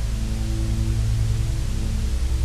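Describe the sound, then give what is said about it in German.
Filtered white noise, used as a soft texture, gives a steady, even hiss that a light filter makes less sharp, with a low tonal drone running beneath it without a break. “Lass mir gerne mal einen Kommentar dazu da, wie dieses weiße Rauschen jetzt auch auf dich wirkt.”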